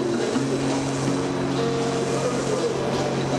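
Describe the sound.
Waves roar as they break against the parapet of a seafront embankment in Yalta in November. The wash is steady and loud, filling the whole stretch without pauses, with a low hum running underneath.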